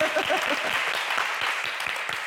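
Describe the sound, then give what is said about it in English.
An audience gives a round of applause after a woman speaks at a panel event. Full, steady clapping runs throughout, with a brief voice near the start. “Can we give her a round of applause, please?”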